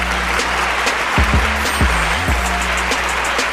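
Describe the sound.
Crowd applause, dense and continuous, holding a loud, steady wash of clapping throughout with some brief tonal sounds mixed in.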